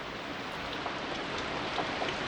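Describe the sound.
Rain falling outside a house door onto a grey, wet farmyard, a steady, even hiss of drops with no voices.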